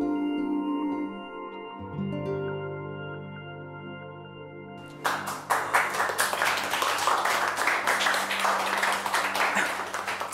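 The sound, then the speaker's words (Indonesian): Audience applause at a live music performance: held final notes of a song fade out, then clapping breaks out halfway through and carries on as a lively burst of many claps to the end. “Terima kasih atas tepuk tangannya dan juga apresiasinya.”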